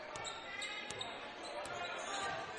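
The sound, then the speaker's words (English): A basketball is dribbled on the court during a Maplewood vs. Creekwood game, giving three evenly spaced, crisp bounces under a commentator's voice. “Keeps the dribble.”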